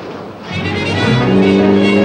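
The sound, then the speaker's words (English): An open-top sports car driving at high speed: loud continuous engine roar mixed with rushing wind, the engine's droning tone swelling and holding steady after the first second. “With Malone in the passenger seat, Jennifer drives her open-top sports car at high speed.”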